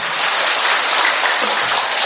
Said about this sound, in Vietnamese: Vỗ tay to lên, to nữa lên.